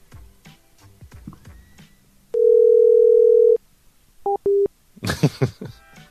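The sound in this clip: After a phone call ends, a steady dial tone hums loudly for just over a second, followed by two short electronic beeps. Voices talk before and after it.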